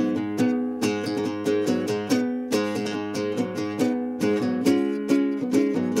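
Riff played on a nylon-string acoustic guitar: a repeating pattern of bright plucked notes and chords in a steady, even rhythm, each attack ringing briefly before the next, played alone with no voices.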